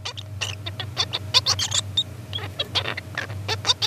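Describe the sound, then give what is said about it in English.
A juvenile songbird practises its still-unpolished song: many short, squeaky chirps and warbling notes, uneven in pitch and rhythm, over a faint steady low hum. “that was a juvenile songbird, just still a little bit rubbish at singing.”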